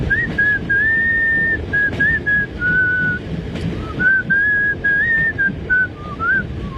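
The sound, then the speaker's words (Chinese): A man, a train driver aboard a passenger train nearing Shanghai station, cheerfully whistles a tune. Bright, wavering held and sliding notes run over a steady low rumble. “想到今天和女朋友的约会，不禁快乐地吹起口哨。”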